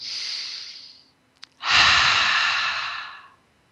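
Deep, slow breaths: one long airy breath, a brief pause with a small click, then a second, louder and fuller breath that trails off gradually.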